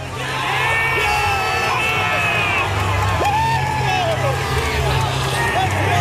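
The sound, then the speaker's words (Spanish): Canada's football players yell and whoop together in a team huddle after a win, a loud, continuous burst of shouting voices with whoops that swing up and down in pitch. “Mira, es el sonido de la piña de los futbolistas de Canadá.”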